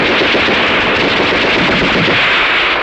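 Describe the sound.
Rifle and machine-gun fire in a battle, a loud, continuous, dense rattle of overlapping shots with no break, no voices.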